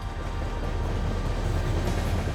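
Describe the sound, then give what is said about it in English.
A train's low, steady rumble runs throughout, a dense and continuous roar with no voices over it. “Well, that's my train. I have to go, but I'll never forget you.”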